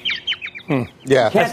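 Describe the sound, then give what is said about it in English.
Birds chirp in a quick run of short, high, downward-sweeping calls at the start, then people begin talking over them. “you can't talk over the birds”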